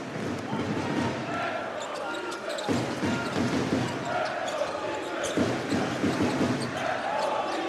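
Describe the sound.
Basketball dribbling on the court during a professional game, with repeated bounces mixed into steady crowd noise and commentary voices throughout.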